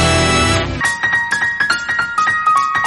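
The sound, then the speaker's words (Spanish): A short musical jingle for a finance lesson segment opens with a sustained chord for about half a second. It then breaks into a bright, rhythmic melody of chiming, plucked notes over a steady beat, with no voices. “Y suena la melodía de la pizarra de Domingo Soriano.”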